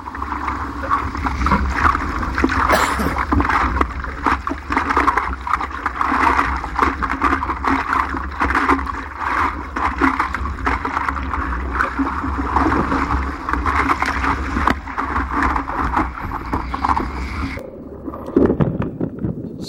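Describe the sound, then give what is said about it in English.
Rushing water and wind roar captured by a GoPro mounted on the front of a surfboard riding a big wave. The noise is continuous, loud and turbulent for most of the run, then drops off sharply near the end. “In fact, in most regards, that's way harder to ride a wave, especially a wave that size, than it would be on your feet. Here's what it looks like from the GoPro camera on the front of his board.”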